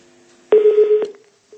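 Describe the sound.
Telephone tones come from a call-in line where the call fails to connect. A loud, steady electronic beep lasts about half a second and fades briefly, then a second short tone begins.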